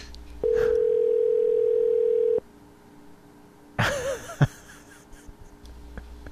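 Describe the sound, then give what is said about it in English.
A ringback tone sounds on an outgoing call to a business: one steady, loud, mid-pitched tone of about two seconds, then a pause and a few brief, irregular noises. “Look, it says it's ringing. Oh, I can hear it. It says it's connected. Yeah, I can hear ringing.”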